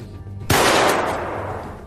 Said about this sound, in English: He's been shot! No, it's just another transistor blowing in the control panel.